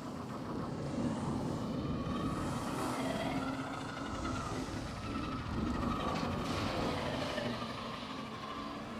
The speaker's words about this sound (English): That's our airships arriving now.